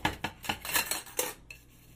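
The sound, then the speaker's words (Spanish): Dishes clink and knock as a plate is washed with a soapy sponge, a quick, fairly regular run of light ceramic and metal taps that stops and leaves near silence. “estoy lavando los platos. Tomo la esponja con jabón. Tiene suficiente jabón y el plato entre mis manos.”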